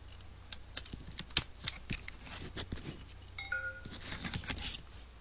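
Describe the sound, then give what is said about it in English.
A wireless network card is pulled from a laptop's PCMCIA slot, making many small sharp plastic clicks and taps in an irregular run, with a louder click near the middle. “And I'm gonna take out my wireless network card from the laptop. On the laptop's PCM CIA slot.”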